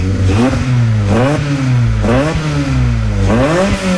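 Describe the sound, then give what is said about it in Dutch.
A 200-horsepower engine revs under throttle in several loud, throaty bursts, each climbing in pitch and dropping back over a deep, steady idle rumble. “Ik ga er ook even gas geven, hè? Een beetje gas geven.”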